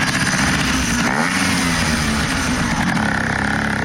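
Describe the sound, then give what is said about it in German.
A moped engine revs as the small bike is cleaned and tuned up for a moped rally, giving a loud, steady buzzing drone that holds throughout with no pause. “Ja, es tönt. Töffli, sie werden geputzt und auf Vordermann gebracht für die legendäre Töffli-Rally”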